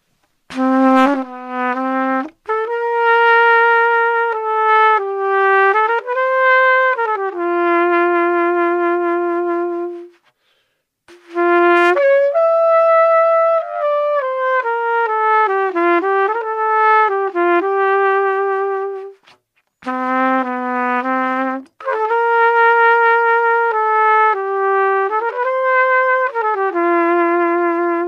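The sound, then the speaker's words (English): A solo trumpet, played without tuning first, performs a jazz arrangement in three melodic phrases separated by short pauses. Its notes are clear, bright and sustained, moving stepwise up and down. “That sound is just awesome, right? There's nothing that sounds like a trumpet.”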